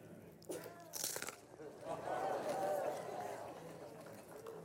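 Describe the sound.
A locust being bitten and crunched at a worship gathering: a few brief, sharp crunches followed by people talking.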